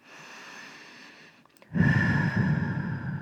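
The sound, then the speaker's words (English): Slow, deep breathing during a guided meditation: a soft, airy inhale, a brief pause, then a louder, fuller exhale, heard alone. “ground and center, and take a few deep breaths in and out.”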